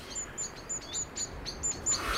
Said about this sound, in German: Das Fenster ihres Zimmers steht offen. Draußen streiten zwei Amseln.